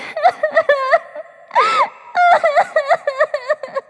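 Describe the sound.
A voice performs a woman weeping without pause, with many short, choppy voiced sobs broken by a longer wavering wail in the middle, loud and alone without other sounds.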